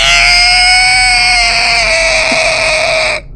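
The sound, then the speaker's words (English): A voice imitates an inhumanly high-pitched scream: one loud, shrill, sustained tone with a bright buzzy edge, held steadily for about three seconds before stopping abruptly. “They let out a scream at a much higher pitch than is possible for human vocal cords to produce.”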